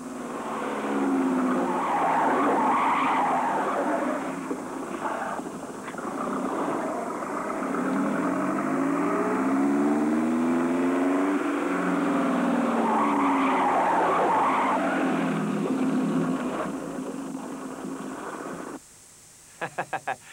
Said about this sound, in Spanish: No, pero si no lo controlas, gira siempre derrapando y luego frena un poco.